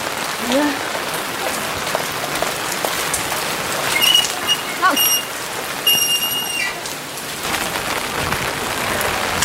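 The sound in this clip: Rain falling steadily on a rainy day, heard as a dense, continuous hiss of drops that stays even and fairly loud from start to finish.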